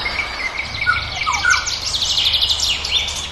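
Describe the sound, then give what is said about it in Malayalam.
Oriole song from a tree in a yard, a mango or jackfruit tree. Many short, high chirps and whistled notes sound faintly over a steady background hiss and low rumble. “നൂൽമഴയുടെ നേരിയ തരുമ്പ് കൂടി ചേരുന്നതോടെ മഞ്ഞക്കിളിയുടെ പാട്ടിന് ആസ്വാദ്യതയേറും.”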